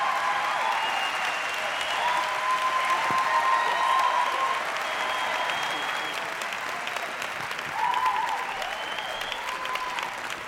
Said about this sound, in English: So let's put our hands together, Bazalani, as we welcome the servant of God, Muruti Precious Ngomane.